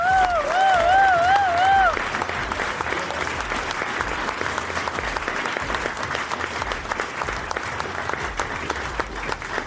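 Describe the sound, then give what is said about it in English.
An audience applauds as a guest is welcomed on stage. A brief warbling tone sounds first, then dense, steady clapping carries on for about eight seconds. “Without further ado, ladies and gentlemen, please put your hands together for the one and only Auto Alex!”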